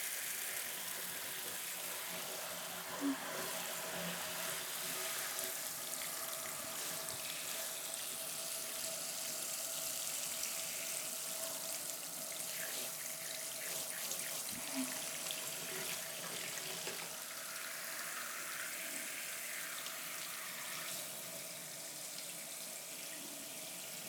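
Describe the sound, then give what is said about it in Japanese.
Hot water is poured over hair as it is rinsed after a shampoo and scalp massage, making a soft, continuous hiss and patter that holds steady throughout without talk. “それでは最後に髪の毛をお湯で流します。”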